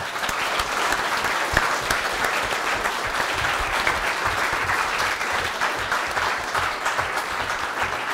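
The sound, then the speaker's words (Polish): A big round of applause marks the finale of a Conan tabletop role-playing game session: loud, dense clapping from many hands that holds steady and unbroken for several seconds. “Wielkie brawa.”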